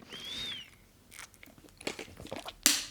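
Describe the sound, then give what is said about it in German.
A quick sip of a drink by a speaker still recovering from bronchitis, heard as a few faint wet mouth and swallowing noises, with no talking. “So, ich muss nur kurz einen Schluck trinken, weil ich immer noch nicht wieder fit bin.”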